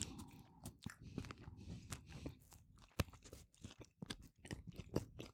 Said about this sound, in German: Wir haben jetzt quasi die deutsche Interpretation einer Krakauer dabei. Das heißt, es ist im Prinzip eine Wurst am Stück. Die habe ich jetzt mit Haut einfach mich jetzt aufgeschnitten und ein bisschen Senf drauf gemacht. Und mal gucken, wie das dazu passt.